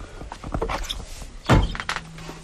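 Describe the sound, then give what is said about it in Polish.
A door opens on a camper vehicle used for travel. Faint rustling handling leads into one solid thunk midway, followed by light knocks as it settles. “Otworzę drzwi.”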